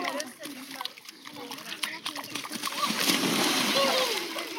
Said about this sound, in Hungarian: Ez például a hőkupola alatt a Dunaparton vettem föl. Csodálatos hely volt arra,